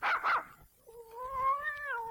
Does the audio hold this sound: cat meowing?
yes